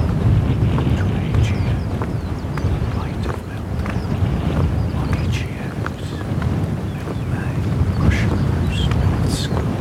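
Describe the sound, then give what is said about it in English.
A curlew calls beneath a skylark's song outdoors in a moderate southeasterly wind, with faint, brief high chirps and whistles scattered over a constant, loud rumble of wind. “Curlew call drifts below a skylark's song.”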